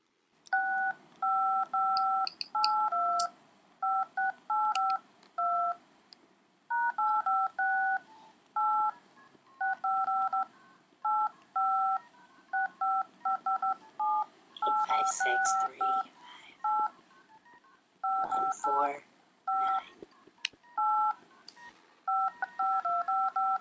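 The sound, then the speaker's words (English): Telephone keypad tones beep as a number is dialed for a calling card: many short dual-tone presses in quick bursts, separated by brief pauses, with a few faint clicks and rustles between groups. “All right, here we go. Let me dial the number here.”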